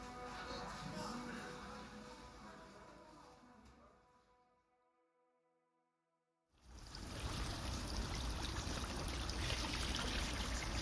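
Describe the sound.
Water runs from a tap while broccoli florets are washed, a broad rushing hiss that fades to silence partway through and then returns louder and steady.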